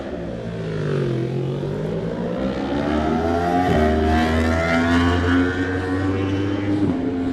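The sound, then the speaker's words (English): A Yamaha superbike races past at speed in a road race, its engine a loud, steady roar with a couple of abrupt shifts in pitch. “Yamaha power next for the Frenchman Amalric Blanc on the 21 bike.”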